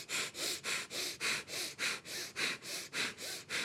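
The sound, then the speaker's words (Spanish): Quick, forceful nasal breaths during a seated meditation breathing exercise with eyes closed, many even pulses in a fast steady rhythm, each a sharp sniff-like rush of air, with no talk. “Aquí cierras los ojos y empiezas a respirar. Aquí, o sea, brazos estirados y empiezas a respirar.”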